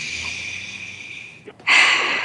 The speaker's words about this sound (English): So I invite you to take a deep breath,